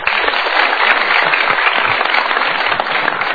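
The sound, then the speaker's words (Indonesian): Audience applause in a talk-show studio: dense, sustained clapping from a crowd that stays loud and even throughout, with no clear voices. “Kita berikan tepuk tangan.”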